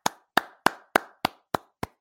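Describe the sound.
Seven crisp hand claps in a studio, struck at a steady, even pace and heard alone with no crowd noise around them.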